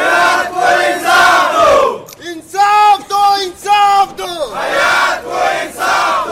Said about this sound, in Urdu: مظاہرین نے مطالبات کے حق میں نعرے لگوائے، انصاف دو، انصاف دو،